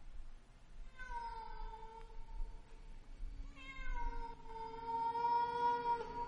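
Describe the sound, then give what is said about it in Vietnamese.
Yowling from a large black cat on a neighbouring roof, heard as two long, drawn-out wails rich in harmonics, the second longer than the first, with no voices. “Chị Xính nhặt lấy viên đá đang định ném thì có tiếng con mèo văng vẳng kêu lên, nghe đến giật mình lạnh người”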